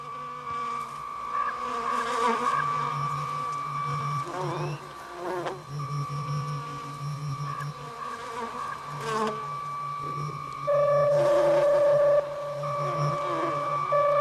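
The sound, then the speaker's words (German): Electronic buzzing like electrified bees in a sound-art piece, with insect-like drones and steady electronic tones, plus scattered swells and a louder, harder tone near the end. “Ich würde sagen, sehr elektrifizierte Bienen.”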